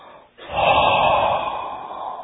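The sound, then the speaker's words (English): A forceful exhale through the mouth, part of a breathing meditation exercise, sounds as one long, loud breathy rush that slowly tapers off, with no talking. “we exhale from the mouth. We do 10 times. This is very, very helpful meditation, If your mind gets under the out of control, that's what you do. Exhale forcefully.”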